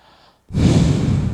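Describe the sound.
A man imitates a sniffing, smelling breath: after a brief faint moment, a single loud, rough inhale bursts in and holds steady as a noisy, breathy rush to the end.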